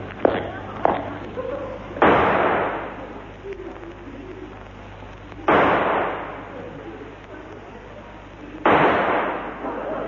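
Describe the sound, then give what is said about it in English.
Pistol shots in a duel ring out as three loud, sharp bangs spaced a few seconds apart, each trailing off in a decaying tail, with a couple of fainter knocks just before the first shot. “Take this pistol. I warn you, I never miss. Nor I. One shot, Moriarty, they call me. Now back to back. 3 paces, and then we fire, monsieur.”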